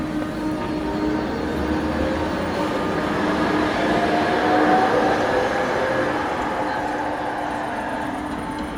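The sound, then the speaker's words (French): A tram passes along a city avenue in Bratislava with a continuous rolling rumble and a faint whine. The sound swells toward the middle, then eases off slightly. “sur l'avenue où le tramway vient de passer”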